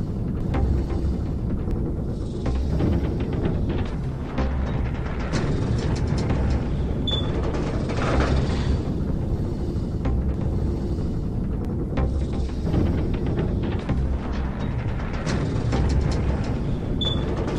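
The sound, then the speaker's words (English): A rattling elevator in a video game, sounding about to fall apart: a continuous loud mechanical rumble with dense clattering and scattered metallic clicks, steady throughout. “And this elevator sounds like it's about to fall apart.”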